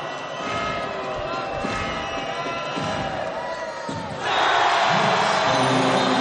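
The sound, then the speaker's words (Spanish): A basketball crowd murmurs and calls out during a free throw, then swells abruptly into a loud, sustained cheer near the end. “El aro, hubo suspense, el público lo jalea.”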